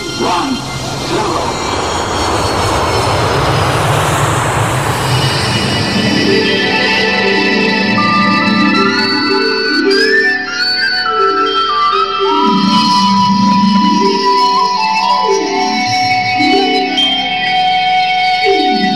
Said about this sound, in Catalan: cordeu-vos bé els cinturons i gaudiu d'aquest viatge per explorar el destí on desvetllarem alguns misteris màgics. Som a punt d'enlairar-nos amb la nau La Fell Luna.